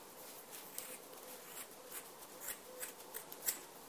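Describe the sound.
Faint, crisp snips of scissors cutting through weaving warp threads where they were wrapped around a warping peg. The many small clicks grow slightly louder toward the end.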